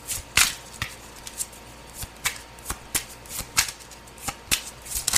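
Tarot cards being shuffled by hand: many sharp riffling snaps and taps in an uneven rhythm, some louder than others, with no talking.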